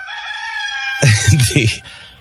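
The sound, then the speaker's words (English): A rooster crows in a long, strained harmonic call, followed by a burst of rougher, noisier sound. “cock will crow three times again today”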